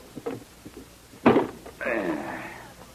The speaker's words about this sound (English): What's supposed to be in this treasure chest? $25,000. Never mind the questions. Just open it. Take your time. It's coming.